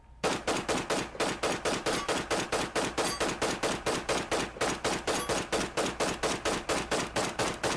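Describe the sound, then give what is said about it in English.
Gunfire during a police raid on a first-floor apartment: many rapid, loud, sharp shots in a steady unbroken burst, evenly spaced like automatic fire. “Shots began to light up the first floor apartment.”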